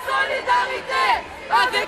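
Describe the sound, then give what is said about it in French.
Protest march crowd near Place de la Nation in Paris, with several loud surges of raised, shouting voices rising over a background murmur of chatter. “Notre correspondant François-Xavier Legrand a suivi le cortège à quelques pas de la place de la Nation.”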